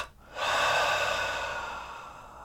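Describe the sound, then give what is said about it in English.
A long, steady breath from a nose-in, mouth-out breathing exercise rushes in after a brief quiet start, then slowly tapers over about two seconds, with no talking. “It goes like this, in through the nose, hold all the muscles and then squeeze them together, find everyone that you can, and then out the mouth.”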